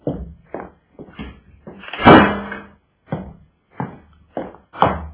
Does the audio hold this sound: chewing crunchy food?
no

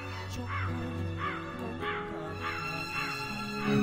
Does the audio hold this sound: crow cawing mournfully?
yes

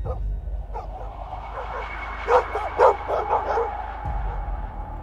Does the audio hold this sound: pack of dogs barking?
yes

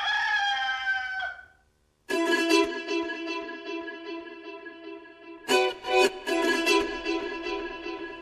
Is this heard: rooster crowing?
yes

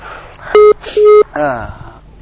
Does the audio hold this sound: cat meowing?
no

